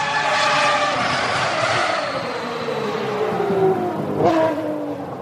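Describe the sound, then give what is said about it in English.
Formula One race cars: a loud, continuous high engine whine whose pitch slides steadily downward, with a sharp surge as a car passes near the end. “To you gearheads, or petrolheads if you prefer, you recognize those sounds. Those are the sounds of Formula One.”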